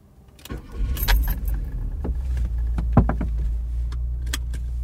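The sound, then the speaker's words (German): Sounds of a car ride: a steady low engine rumble with a few light clicks and jangling rattles on top, rising from a quiet start. “Am nächsten Morgen sitze ich mit Dick Ryan im Auto.”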